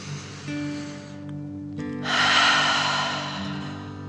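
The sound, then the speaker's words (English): A deep dragon breath in a guided breathing meditation: a quiet intake, then a forceful, rushing breath out through the mouth, breathy and loud, over soft sustained tones. “Let's take 3 more deep dragon breaths as you continue to float. Deep breath in and out.”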